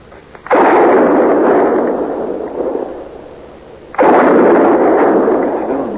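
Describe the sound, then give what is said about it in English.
Two loud gunshots fired as a signal for help by a man lying among a herd of buffalo, each a sharp boom followed by a long rolling decay, the second coming a few seconds after the first. “Them shots. Yeah. That's a signal for help”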